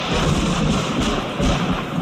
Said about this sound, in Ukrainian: Та в цю саму хвилину загримів грім.